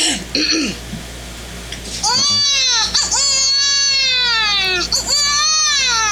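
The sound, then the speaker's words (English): A person imitates a newborn baby crying with a string of high, strained, wavering wails whose pitch curves downward. Softer vocal sounds come briefly before the loud wailing. “I can cry like a baby, a newborn baby. I should do that now.”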